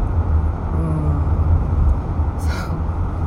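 A car being driven on a road makes a steady, dense low rumble of engine and tyre noise that holds constant throughout, with a brief faint hiss late on.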